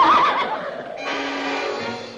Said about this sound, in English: the draft horse swings its head toward her